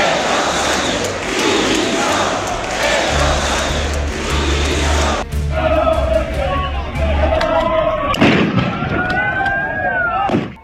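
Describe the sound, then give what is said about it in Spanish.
A riot crowd in front of the Congress in Madrid after a demonstration, as police disperse a small group of ultras: a dense roar of shouting with sharp bangs like firecrackers and explosions cutting through, loudest near the middle and end. “Estos son los disturbios que se han producido en Madrid una vez terminada, como decíamos, la manifestación de la capital, que ha reunido a decenas de miles de ciudadanos pacíficos. La policía ha disuelto a este grupúsculo de ultras frente al Congreso”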